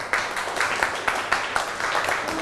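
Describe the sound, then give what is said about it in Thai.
Children in a classroom clapping for a group of classmates, a loose burst of many small hands with several sharper peaks poking out of the steady patter. “เก่งมากกลุ่ม5ปรบมือค่ะ”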